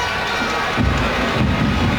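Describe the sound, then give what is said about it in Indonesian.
Stadium crowd cheering at a Selangor football match at MPPJ in the final fifteen minutes, a dense roar that swells louder after the first second and then holds steady. “Masa kian berdetik, 15 minit terakhir di MPPJ. Sorakan semakin dipertingkatkan.”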